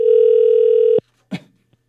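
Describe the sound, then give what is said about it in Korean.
A telephone dial tone sounds while a call is being placed. It holds a loud, steady hum for about a second, then cuts off, followed by a single short click and near silence. “언니에게 제가 전화해볼게요.”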